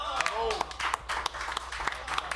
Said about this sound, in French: Oui, ici, on l'applaudit!